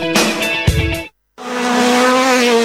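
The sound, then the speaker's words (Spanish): Rally car engines roar loudly, with high revving and a tire squeal at first. After a brief silence, one engine holds a sustained, strained roar at high revs. “Muy pronto rugen los motores en los caminos del departamento. Rally de 33.”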